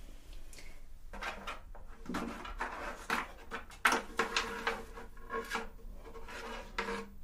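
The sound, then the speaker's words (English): Scratchy strokes of a pen drawing guide points on the brows during a spa brow-shaping session, heard as a series of short, rasping bursts of uneven loudness separated by brief pauses. “I'm just going to take my measuring tape and a pen and just draw my points.”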